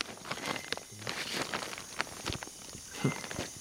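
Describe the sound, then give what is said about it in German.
Footsteps on a plastic installation in the rainforest make faint, irregular crackling and tapping, many light steps with hollow plastic knocks, no voices. “und dann triffst du da auf so eine Plastikinstallation. Das ist lustig, ne? Das hört sich dann so an, dieses Plastik da.”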